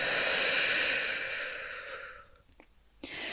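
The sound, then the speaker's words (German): A deep breath during a guided breathing exercise: a long, loud, airy rush of breath that slowly fades, a short quiet gap, then another breath begins. “bitte ich dich einmal einfach tief durch die Nase einzuatmen Und durch den Mund wieder auszuatmen”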